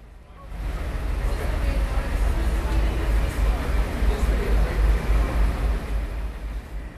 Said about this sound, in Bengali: শুনছিলেন হয়তো কিছুটা অস্পষ্টভাবে হলেও গাড়ির শব্দ, যানবাহন চলাচল করছে সেই শব্দ আমরা শুনতে পেরেছি।